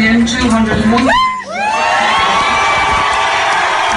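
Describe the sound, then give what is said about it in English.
A crowd at the George in Dublin erupts as a vote result is announced. A single voice comes first, then loud rising whoops break out and settle into sustained cheering. “And this, I have it on tape here, the moment that the announcement was made. Wait till you hear the reaction from the crowd in the George here in Dublin.”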